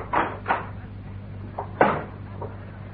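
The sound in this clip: A wardrobe door opens as someone climbs out, giving a few soft, quiet knocks and bumps of wood spaced unevenly over a low, steady background hum.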